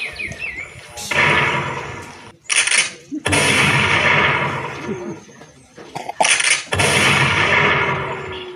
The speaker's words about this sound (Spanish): De pronto, al ver una figura de una loica entre los árboles, levantó su arma y apuntó. Y disparó.